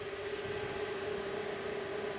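Server cabinets in a data centre give off a constant, even whoosh, twenty cabinets of ten servers each in the basement of a new residential building in Dresden; a faint steady rushing noise carries a low, unchanging hum, with no voices.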